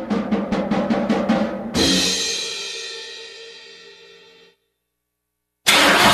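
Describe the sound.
A diesel car engine starts: several quick, rhythmic cranking pulses give way to a loud burst that steadily fades out, followed by silence and then another sudden loud sound at the end.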